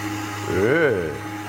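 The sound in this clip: A kitchen mixer runs at low speed while oil and milk are mixed in, giving a steady motor hum under a person speaking.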